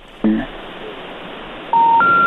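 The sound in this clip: Telephone tones sound as a call connects: a brief tone burst, then two steady electronic beeps, each pitched higher than the last, over a thin, hissy phone-line background.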